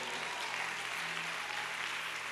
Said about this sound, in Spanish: Le haré un aplauso a Dios por estas almas.